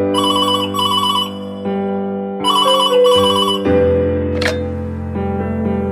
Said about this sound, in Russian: И тут вдруг, в один прекрасный день, раздается телефонный звонок.